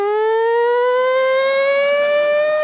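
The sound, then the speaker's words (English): A voice imitates a wailing siren, holding one loud, continuous tone that climbs slowly and steadily in pitch from start to finish. “and the siren goes off like,”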